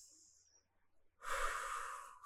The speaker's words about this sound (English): Take your deep breaths in